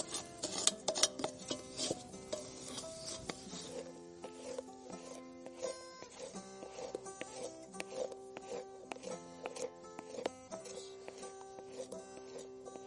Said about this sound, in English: I'm just going to use like a spatula real quick. Take out anything that might be burning. It's a little runny still, but I'm fine with that. We'll just keep stirring until it becomes sugar.